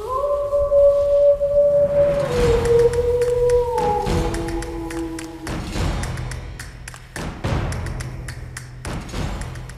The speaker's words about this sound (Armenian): Ձմռան գալուստի հետ մոտակայքում լսվեց սոված գայլի ոռնոցը։